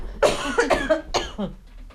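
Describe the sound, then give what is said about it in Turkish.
A person gives a short fit of coughing, a few rough, fairly loud bursts in quick succession before it fades out. “Hemen bir kısa öksürüyorum.”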